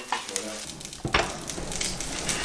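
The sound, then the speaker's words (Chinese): Millet goes into boiling water in an iron wok over a wood fire. A sudden burst about a second in is followed by a steady hissing, bubbling sizzle that continues to the end. “水开后，将小米下锅。”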